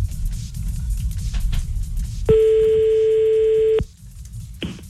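A telephone ringback tone sounds while a call is placed to someone's sister: low background noise, then one steady, clear tone of about a second and a half, followed by the start of the next ring just before the end.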